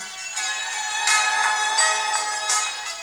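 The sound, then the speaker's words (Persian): A phone rings with a bright electronic ringtone, repeating a short melodic pattern of high tones at a steady, fairly loud level. “که تلفنم زنگ خورد. نشد تا جمله رو کامل کنم.”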